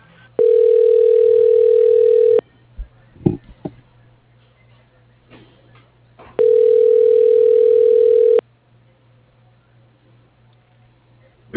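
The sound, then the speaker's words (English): A telephone dialing tone on an office extension line sounds as two long, steady, buzzing tones of about two seconds each. A long pause with faint clicks separates them, and a sharp click comes at the end. “Dialing.”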